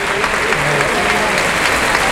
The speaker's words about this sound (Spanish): Mostrándolo al público, el público que aplaude.